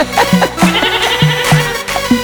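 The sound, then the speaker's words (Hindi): Goats bleating in a quick series of short, nasal, wavering calls, several in just over two seconds, loud and with nothing else around them. “आजकल की बकरियां बे बे करती।”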